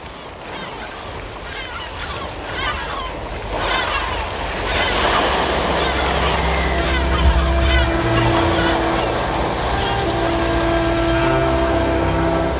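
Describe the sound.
A ship at sea gives a steady low engine rumble mixed with rushing waves and wind noise, continuous throughout and growing louder partway through.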